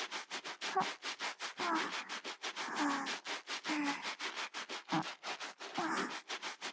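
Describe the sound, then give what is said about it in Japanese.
Brisk scrubbing of an armpit: many quick, even rubbing strokes in a steady rhythm, each a soft brushy swish, kept up without pause through the whole stretch. “まずは脇からゴシゴシしますね。ゴシゴシゴシゴシ。”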